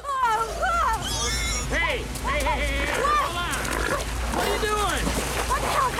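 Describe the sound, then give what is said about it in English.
A brown pig grunts and squeals near a river, its noises mixed with people talking over it throughout. “It's a pig. What are you worried about? He's more afraid of us than we...”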